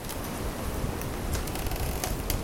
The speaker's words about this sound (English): That sound is the creaking and popping of frozen trees hit by this fierce winter wind.